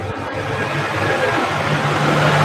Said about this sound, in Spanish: Ahí tenemos sonido de origen, hay un vehículo, algo por ahí